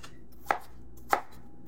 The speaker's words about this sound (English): Here, though, I'm going to give it just a nice, good mincing. Now, it doesn't have to be exact.